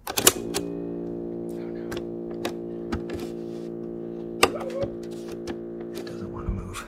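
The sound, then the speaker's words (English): An old cassette tape is loaded into a tape player: sharp plastic clicks and clacks scattered over a steady mechanical hum from the player. “And so, we popped it into my tape player.”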